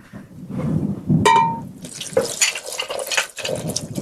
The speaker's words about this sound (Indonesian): Karena itu yogurtnya udah agak asam. Sip. Ambil kasih air. Cukup.